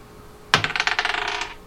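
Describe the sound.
A die rolled across a table during a tabletop game, ending up under a computer: a sharp first clack followed by a rapid string of small rattling bounces that gradually fade.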